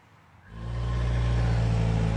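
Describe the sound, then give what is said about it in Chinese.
A car accelerates as the driver steps on the gas: a quiet engine hum jumps into a loud, steady, low roar that holds to the end. “欧阳子豪又是一脚油门，车又往前一窜。”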